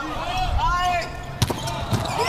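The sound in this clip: Two sharp thuds of a volleyball bounced on the court before a serve in a match involving Germany's team, spaced about half a second apart under steady commentary.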